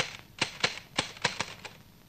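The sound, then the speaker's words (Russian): Typewriter keys struck by a woman typing, a handful of sharp, crisp clacks at an uneven pace, fairly faint and with no talk. “печатает на машинке”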